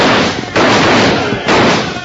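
Rifle gunfire during a mounted fight: two loud, noisy bursts of shots about a second apart, each sustaining a crackling wash rather than cutting off sharply.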